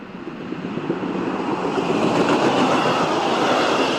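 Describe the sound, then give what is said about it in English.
A train passes by with a steady, dense rumble and faint wheel clatter that swells slightly louder as it goes on, with no voices. “That was a train passing by”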